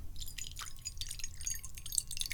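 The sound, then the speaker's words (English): Fresh water poured from a jug into a cat's bowl makes a faint, continuous trickling splash with bright bubbling and dripping, heard alone without talk. “We open up the jug, and we start pouring the new kitty water.”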